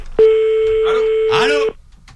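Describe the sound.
A steady telephone line tone during an attempt to call someone back, held at one flat pitch for about a second and a half while voices talk over it.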